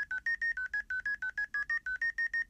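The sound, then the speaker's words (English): Telephone keypad tones dialed to enter a meeting ID: a long, rapid, evenly spaced run of many short, clear two-pitch beeps, each note slightly different, with no voices. “Enter your meeting ID followed by pound.”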